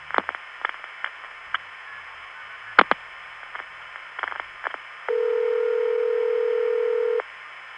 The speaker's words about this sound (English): This is an NX1 tandem MFing to an NX1 office, which rings a line.